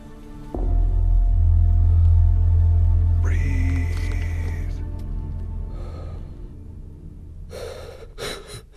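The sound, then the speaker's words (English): Heavy breathing from someone sitting in a car: slow, audible breaths over a steady low rumble, with a few sharper intakes near the end. “I got in my car. Breathe. And I went to record a reflection on this experience. But all I could do was breathe.”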